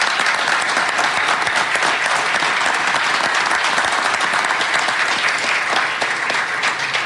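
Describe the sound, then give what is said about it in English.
Sustained applause fills a press conference welcoming a new San Francisco Giants player: a dense, steady roar of many hands clapping at even loudness throughout, with no voices on top. “I know this is a press conference, but you have to excuse me. I'm going to give him a round of applause.”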